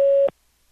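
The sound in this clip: A single short, steady mid-pitched beep from a phone line's recording prompt, cut off abruptly and followed by near silence.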